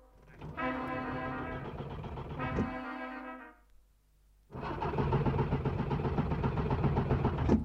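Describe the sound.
A car engine is cranked but fails to start: a steady, buzzing whir comes in two long bursts with a short quiet gap between them, and there is no talking.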